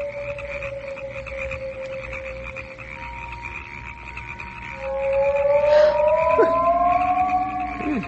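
Frogs croaking on an island in a continuous chorus that grows louder in the second half, with drawn-out tonal calls gliding upward over a steady background drone.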